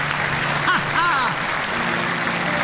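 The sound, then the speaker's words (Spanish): Applause from a church audience, a dense, steady wash of clapping throughout, with a brief shouting voice rising over it near the middle. “Agradezcan, lo han hecho bien. Ese aplauso tiene que ser más grande.”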